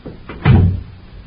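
An outer door opens and shuts: a faint rattle of the latch is followed by one solid, low thump, then quiet.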